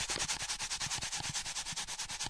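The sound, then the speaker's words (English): A styrofoam cup rubbed back and forth on dry, clean hair gives many quick, evenly spaced scratchy strokes in a steady rhythm, each a short bright swish, with no talking. “they're going to take a styrofoam cup and they're going to rub it on their nice, dry, clean hair.”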